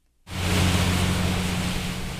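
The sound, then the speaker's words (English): Water rushing back into a river as it is pumped out of the flooded streets of a town. A steady, loud, broad roar starts abruptly and holds, with a low constant hum underneath and no talk. “Water rushing back into the Tar River as it's being pumped out of the streets of Princeville.”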